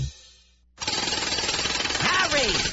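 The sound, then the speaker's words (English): A jackhammer pounds at 2:30 in the morning in rapid, loud, relentless bursts of hammering. Before it starts there is a low rumble and a short silence. Near the end a voice rises briefly over the din. “where do you get a jackhammer at 2:30 in the morning?”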